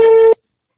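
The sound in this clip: A single short telephone tone from an unanswered phone call: a steady, buzzy beep lasting about a third of a second, then silence.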